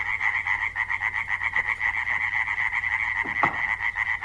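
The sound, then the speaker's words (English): Frogs croaking in marsh ponds in spring form a dense, continuous chorus of steady, pulsing trills that hold at a constant level throughout, with no talk. “We live in the marshes and there's some ponds around the house and stuff, so in quite a few of my recordings, once spring gets underway, you'll hear the frogs singing.”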